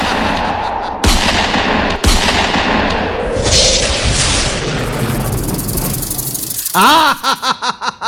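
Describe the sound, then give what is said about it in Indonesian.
Gunshots ring out in a comedic scene, two sharp, loud bangs about a second apart, cutting through a busy, noisy background. “tak tembak awakmu.”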